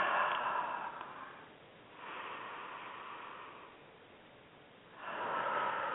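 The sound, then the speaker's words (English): Slow, deep breathing during a guided relaxation exercise, drawn in through the nose and let out through the mouth. A few long, soft, airy breaths rise and fall with quiet pauses between them, and no talk is heard. “take some deep, deep breaths in through our nose, breathe and hold them all the way down into our lower belly, and then exhale through the mouth.”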